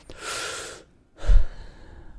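A deep breath taken alone: a long, airy rush of breath, a brief silent pause, then a second breathy phase that starts stronger and trails off softly.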